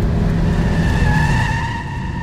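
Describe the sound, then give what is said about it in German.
A dark green Jaguar skidding, with a loud, sustained tire squeal over engine roar that eases slightly at the end. “Das Auto überschlägt sich.”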